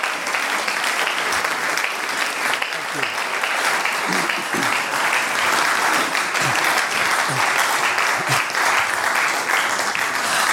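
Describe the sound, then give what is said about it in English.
Warm audience applause at an evening interview event before a football-supporting crowd, dense continuous clapping that stays loud and even for about ten seconds without a break. “So please do give a warm round of applause to Mr. Matt Baker.”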